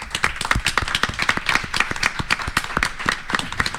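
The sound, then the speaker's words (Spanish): Applause welcoming a guest as he enters, many fast overlapping claps forming a dense, steady rattle that holds through to the end, with no talk over it. “para el que voy a pedir un fuerte aplauso, para Adrián Gómez.”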